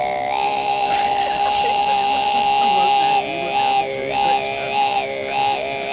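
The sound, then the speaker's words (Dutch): Tuvan throat singing: a steady low drone with a bright, whistling overtone melody that glides and shifts above it, sung alone without talk. “Dat heet Tuva-muziek. En dat is heel eigenaardige keelklankmuziek. Dat is een aparte techniek en dat klinkt zo.”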